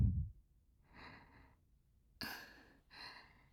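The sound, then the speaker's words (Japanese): Slow breathing in and out during a guided exercise to ease breathlessness: a few soft, airy breaths, the second clearly louder and sharper, with short quiet pauses between them and no talking. “吸って、吐いて、吸って、吐いて。”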